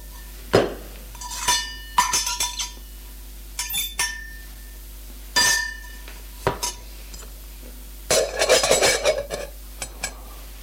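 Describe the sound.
Spoon clinks against cups and dishes as a drink is served with two spoonfuls of sugar. Many light, bright chinks and short rattles come in irregular bursts, faint, with no talk.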